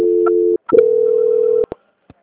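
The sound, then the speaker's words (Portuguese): Telephone line tones sound while a call is being transferred: a steady tone, a brief break, then a longer steady tone, ending with a couple of short clicks. “Aí agora a senhora aguarda só um instante em linha que eu já estou transferindo a ligação, tá?”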